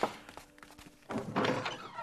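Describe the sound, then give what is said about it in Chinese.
A door being opened at home gives a few soft, dull thunks, followed by a louder stretch of rustling and scraping. “我去开门。”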